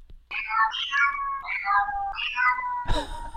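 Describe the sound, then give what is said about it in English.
A cat meows in a drawn-out, sing-song series of a few high, wavering calls that bend in pitch, ending with a brief noisy burst; no one talks. “There's a kitty cat. It's a kitty cat singing.”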